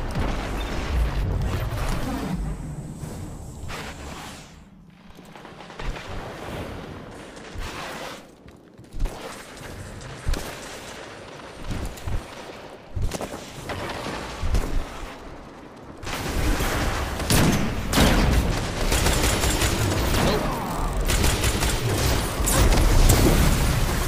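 Gunfire in the video game Destiny 2: dense, continuous bursts of shots and booms that run throughout and grow louder and busier over the last third.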